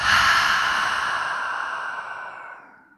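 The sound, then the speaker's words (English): A long, breathy exhale through an open mouth after a deep breath in, part of a relaxation exercise. It starts fairly strong and fades gradually over about three seconds. “Let's take a huge breath in, open the mouth, and exhale it out.”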